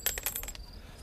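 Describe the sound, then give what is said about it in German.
A gold coin worth a full pound drops and gives several bright metallic clinks in quick succession. A thin, high ringing tone then fades out faintly. “Ein Goldstück.”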